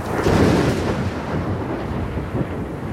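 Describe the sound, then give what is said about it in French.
Deep rolling thunder from a lightning strike roughly 1.5 km away during a storm: a loud, continuous low rumble that swells early, then holds steady with faint crackling texture for the whole stretch, with no voices. “Il y a eu 4 secondes entre l'éclair et le tonnerre”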